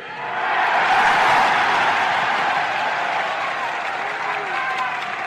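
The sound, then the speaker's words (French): Long, emotional ovation from a large crowd in Montreal, a dense, loud, steady wash of clapping that swells and holds throughout without letting up. “La longue ovation mêlée d'émotions est intense.”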